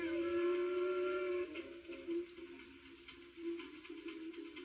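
A train whistle sounds in a long, steady steam-whistle tone that breaks into a few shorter, wavering blasts, fairly faint throughout.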